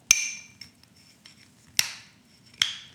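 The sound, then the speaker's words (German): A metal bottle opener clinks against a cold bottle of Progusta India Pale Ale from Braufaktum, whose larger cap the normal opener does not fit. Three sharp, ringing metallic clinks come with a few fainter taps between them. No talk. “Das ist dieser Öffner. Nee, ich brauche einen anderen Öffner. Das ist ein größerer Dings. Ah, krass. Da passt der normale Bieröffner nicht drauf.”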